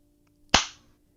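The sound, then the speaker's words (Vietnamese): A hard slap across a man's face: one sharp, loud crack with a short fading tail, heard alone over a faint steady hum. “Linh lại tát một cái trời giáng vào mặt Kiệt. Gã ôm mặt run rẩy.”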